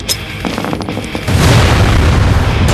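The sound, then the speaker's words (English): A concussion grenade goes off in an audio drama: a few faint clicks lead into a loud, deep, broad blast about halfway through that roars on to the end. “I'm gonna use a concussion, Rock! It's gonna make a pow!”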